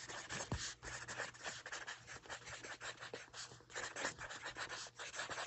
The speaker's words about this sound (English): I hear your writing so fast.